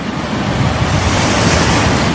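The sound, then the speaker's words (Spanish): Stormy sea waves and wind during a hurricane: a dense, unbroken roar of surf and rushing air that stays loud and steady throughout, without pauses or voices. “La tormenta era terrible. Nunca unos ojos vieron una mar tan alta, tan terrible y llena de espuma. El viento nos impedía avanzar”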